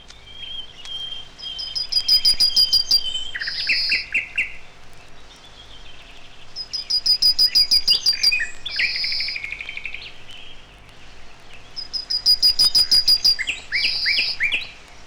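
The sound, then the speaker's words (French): A yellowhammer sings at a meadow's edge beside woods, repeating its song three times: a rapid string of high, thin notes ending in a lower, drawn-out phrase, with quiet gaps between strophes. “Dans la prairie, à la lisière du bois, le bruant jaune.”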